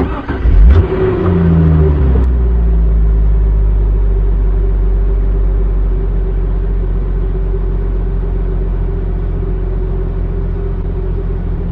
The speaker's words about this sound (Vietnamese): Dục Chu lái xe rất điệu nghệ, xe chạy trên con đường nhỏ